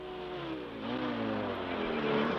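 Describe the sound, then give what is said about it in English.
Engine of a stolen Jeep being driven away: a continuous, loud motor roar whose pitch wavers up and down as it revs, with no voices. “But fuck it, he's driving the guy's Jeep. He stole Grover's Jeep.”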